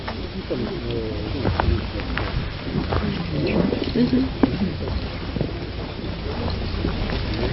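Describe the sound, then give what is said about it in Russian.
Wind buffets the microphone with a steady low roar and rumble throughout, while people talk over it. “Вот можно еще вот здесь сбоку садиться, чтобы было просто вам слышно, потому что ветер, и я волнуюсь, что не будет слышно.”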